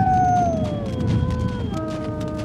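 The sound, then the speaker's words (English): A distant wolf howls from a mountain glen, a long sustained tone that slowly falls in pitch and then shifts lower, over a low rumbling background. “He twitched his ear toward a distant wolf howl from up in a mountain glen.”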